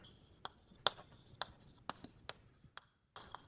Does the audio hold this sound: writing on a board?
yes